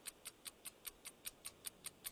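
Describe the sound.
Quiz-timer clock ticking steadily, with eleven sharp, high, evenly spaced ticks at a brisk regular pace and no other sound.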